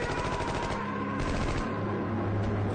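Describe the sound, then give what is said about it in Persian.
Sustained gunfire in a war drama as fighters lay down covering fire against Iraqi soldiers, with grenades thrown. A dense, continuous crackle of rapid shots runs loud and unbroken through the whole clip. “مرتضی و مهدی خط آتشی درست میکنن تا بقیه بیرون بیان.”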